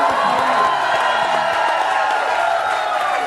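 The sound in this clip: A crowd cheers and whoops to welcome a guest at a morning food drive event, a dense, steady roar of cheering with some clapping and voices mixed in throughout.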